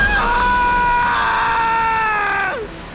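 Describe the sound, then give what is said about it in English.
A loud, high-pitched scream is held steady for over two seconds, then slides down in pitch and cuts off abruptly, with no other voices clearly heard. “Stop yelling! We're gonna be okay!”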